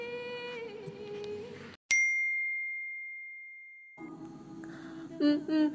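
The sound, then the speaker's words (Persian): A phone notification ding announces an incoming voice message from an unknown number: one bright, high chime that rings on as a long steady tone and slowly fades, with other background sound before and after it. “مادر، یه پیام صوتی اومد، شماره ناشناسه، پخش کن.”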